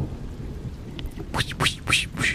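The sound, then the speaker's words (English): Thunderstorm moving in with steady rain, a rushing hiss that swells into a few loud, broad surges of thunder and downpour toward the end. “The sounds of a storm moving in drowned out the rest of the city.”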